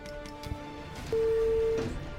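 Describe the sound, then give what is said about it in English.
A single steady electronic beep sounds as an elevator button is pressed. It is a clear, mid-pitched tone lasting under a second over a low background hum. “There's the elevator up ahead. I see it. I'll press the button.”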